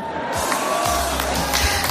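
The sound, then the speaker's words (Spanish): Crowd cheering and applause for Michael J. Fox after his remarks. An excited, loud roar of voices and clapping builds quickly and stays strong throughout. “Son palabras, como digo, de Michael J. Fox, que eran tremendas, vamos, recibidas con un aplauso gigantesco.”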